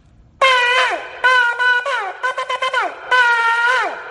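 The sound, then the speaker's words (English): A ram's horn shofar is blown: a long, bright brassy blast, then a middle stretch of shorter broken notes and quick staccato bursts, and a final long blast, each sustained note sagging in pitch as it ends. “according to Rashi, this is how the Shofar sounds like.”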